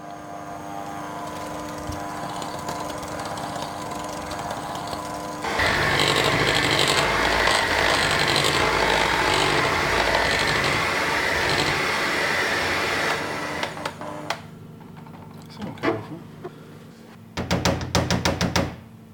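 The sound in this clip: A kitchen machine nicknamed Elvis is started while a vegan cake is being made: a low hum gives way to a loud, steady whirring that runs for several seconds, stops, and is followed by a few clattering knocks.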